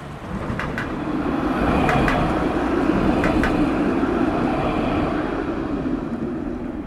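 A tram passes along a city street with a steady, broad low rumble that swells gently and then eases, and a few sharp ticks stand out above the roar.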